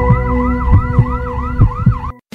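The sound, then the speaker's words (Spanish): An ambulance siren wails in rapid repeating sweeps, loud over low thumping sounds, then cuts off abruptly just before the end. “Ambulancias Spey, un gran equipo a tu servicio, a una llamada de distancia.”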